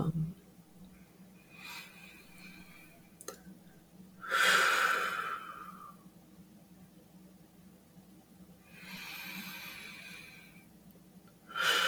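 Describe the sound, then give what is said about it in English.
Slow, deep breathing during a guided relaxation exercise: a few airy breaths, two of them long and drawn out with a soft rushing hiss, separated by quiet pauses. “just go through some of these deep breaths”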